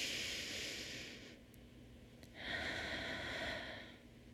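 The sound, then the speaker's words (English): Slow, deep breaths during a guided relaxation exercise: two long, soft, airy hisses of breath, faint and without talk. “I'm going to take one more deep breath in. Join me.”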